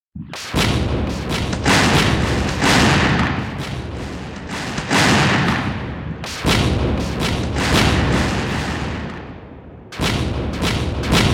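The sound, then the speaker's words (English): Heavy artillery bombardment of Veracruz by mortars and howitzers, heard as loud, continuous rumbling booms and blasts. A few sharp new detonations break through the thick roar, and no voices are heard. “With 10 mortars, two howitzers, three Paixhans, four 24 pounders, and, as of a day or two later, the Navy loaned 32 pounders. U.S. forces now bombard Veracruz for the next three days.”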